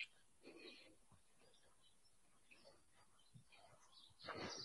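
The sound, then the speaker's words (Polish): Pigeons take off with a short, loud burst of flapping wings near the end, after a stretch of faint, low street background. “Gołębie spieprzają. Nie bójcie się, nie bójcie.”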